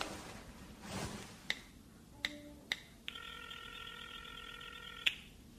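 A phone is dialed to call someone: a few faint, sharp button clicks, some with brief tones, lead into a steady multi-tone signal lasting about two seconds, followed by another click.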